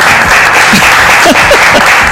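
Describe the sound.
Audience applause in a small space at La Pedrera, dense and loud clapping that holds steady throughout, with a few voices faintly audible within it.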